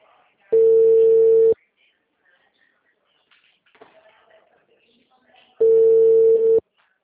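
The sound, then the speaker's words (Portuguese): A Brazilian telephone ringback tone plays while a call connects: two long, steady single-pitched tones about four seconds apart, with faint rustling in the quiet gap between them. “Está chamando.”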